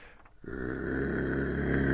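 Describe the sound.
A man's voice imitates a dog's growl. After a brief quiet moment, a low, gravelly, rumbling snarl starts and builds in loudness, holding steady as a single sustained growl with no other sound.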